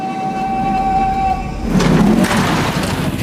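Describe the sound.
A train sits at the dead-end terminus of its line at Ban Lem. A loud, steady rail rumble carries a sustained high tone for the first half, which then gives way to broader rattling noise.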